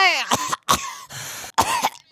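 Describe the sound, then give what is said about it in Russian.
An old woman coughs in a few harsh, rasping bursts separated by short pauses, loud and rough, with no talk between them. “Так я ж кашляла, а не чахала.”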